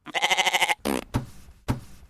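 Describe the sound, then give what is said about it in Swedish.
An old goat gives one long, wavering, quavering bleat, loud and nasal, followed by a brief rustle and a few dull thuds. “Titta här! En gammal get!”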